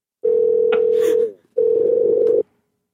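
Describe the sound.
An outgoing phone call rings out with two ringback tones. Each is a steady, buzzy mid-pitched tone, the first about a second long and the second slightly shorter after a brief gap.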